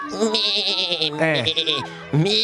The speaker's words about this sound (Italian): Cos'è? È una pecora, no? Ma figurati, una pecora. Se fosse una pecora dovrebbe fare...